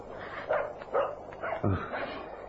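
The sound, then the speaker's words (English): A small dog barks a few times in quick, sharp yips. The barks are faint over steady background noise. “It's a dog. A little dog barking.”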